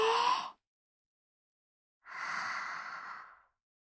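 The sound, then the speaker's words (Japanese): Deep breaths during a guided relaxation exercise: a short airy breath, then after a silent pause of over a second a longer, steady breath lasting about a second and a half, heard alone with no talk. “緊張をほぐしていきましょう。さあ、一緒に。吸って。”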